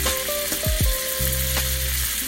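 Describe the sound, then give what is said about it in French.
Sardines sizzle in a very hot pan with a drizzle of olive oil, a loud, steady crackle and hiss of frying that runs throughout, broken by a few low knocking sounds. “Une poêle bien chaude, un filet d'huile d'olive, encore, et on dépose les sardines côté pot.”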